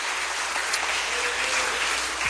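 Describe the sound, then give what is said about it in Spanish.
A church audience applauds during a worship service, giving a steady wash of many hands clapping at an even level throughout, with no voices standing out. “Le damos un aplauso al Señor.”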